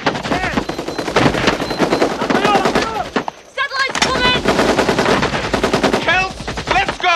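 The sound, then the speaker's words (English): Submachine gun firing at a human silhouette target on a training range: loud, rapid, dense bursts of shots with a brief pause midway before the firing resumes. “Sean fires his submachine gun at a human silhouette and blasts holes in its chest.”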